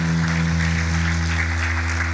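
Applause from a church audience, a dense continuous patter of clapping with no break, heard over a steady sustained low musical tone.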